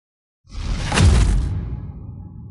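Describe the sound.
Whoosh of a magic ice arrow flying: a loud rushing swish swells quickly, peaks, then thins into a lingering airy hiss as it fades.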